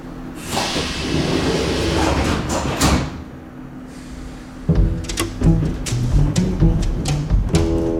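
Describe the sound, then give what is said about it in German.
Subway carriage interior with a sparsely occupied car in the late morning: a steady rumble and hiss of the moving train dips briefly, then returns louder with a tonal whine and a few clunks. “U-Bahn-Waggon innen. Spärlich besetzt. Später Vormittag. Geräusch des fahrenden Zuges.”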